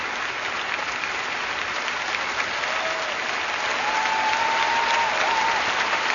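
Warm, sustained applause fills a university auditorium during a papal visit, a dense crowd clapping continuously that swells slightly in the second half and never pauses.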